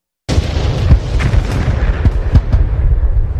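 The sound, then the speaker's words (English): Heavy World War I artillery fire in a loud, continuous barrage, with many deep booms overlapping in a dense, rumbling roar. “I want you to hear this. Listen to the guns. Let's go ahead and play the audio clip.”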